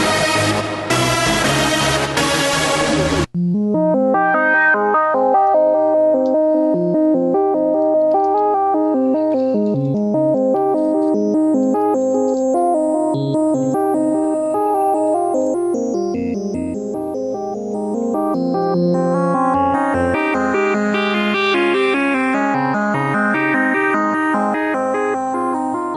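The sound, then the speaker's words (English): Software synthesizer music from Native Instruments Massive: a dense, bright burst lasts about three seconds, then layered sustained tones and repeating melodic notes continue at steady loudness, with quick, higher arpeggiated figures added near the end. “That's the sound of Native Instruments Massive.”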